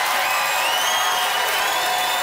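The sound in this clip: A live audience cheers and claps to vote for a contestant in a debate show, with a dense crowd roar and bright whistle-like tones over it, loud and steady throughout.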